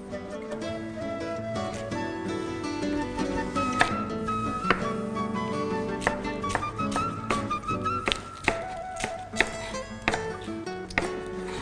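Knife chopping a tomato, seeds left in, into small cubes: a few sharp, crisp chops land irregularly over steady background music.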